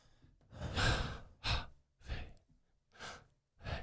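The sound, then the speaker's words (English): A person breathes in and out audibly to imitate a pronunciation of the divine name Yahweh, giving five airy, breathy bursts in an uneven rhythm. The first burst is the longest, and short silences separate them. “the pronunciation of Yahweh, which is the name, yeah, is basically like, it's like taking a breath. Like a breath, yeah.”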